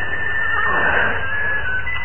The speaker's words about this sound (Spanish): Los caballos advierten su presencia y relinchan nerviosos.